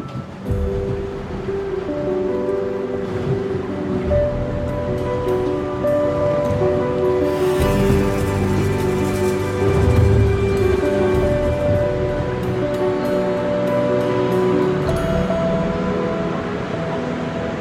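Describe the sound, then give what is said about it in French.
Sea waves wash along the North Sea shore at a nautical base in Dunkirk, a continuous broad rush that swells briefly midway, with a steady low tonal hum running beneath. “Nous sommes maintenant à Dunkerque, au bord de la mer du Nord. À Dunkerque, c'est la ville natale de Thomas Ruyant. Nous nous trouvons précisément à la base nautique de la Licorne”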